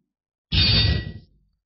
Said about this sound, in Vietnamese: Một tiếng kiếm rung keng vang lên